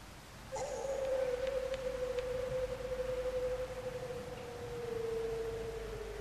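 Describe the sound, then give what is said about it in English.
A long, mournful howl of a hound on the moor: one sustained tone that holds steady and slowly sinks in pitch, over a constant background hiss. “The moor is full of noises. What was it? The peasants say it is the hound of the Baskervilles calling for its prey.”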